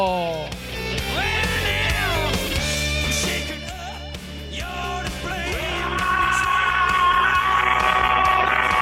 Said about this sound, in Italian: Io comincerei con un urlo. Comincerei con un urlo anche stasera. Con un urlo feroce. Urlo.